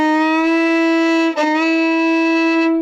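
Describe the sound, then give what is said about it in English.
A fiddle slide on violin: one sustained bowed note dips briefly in pitch midway, slides back up, then holds steady to the end. “And slides, which sound like this.”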